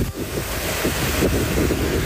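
Wind blowing at the seaside: a continuous, loud rushing roar that buffets the microphone, with a low rumbling wash of surf beneath and no voices.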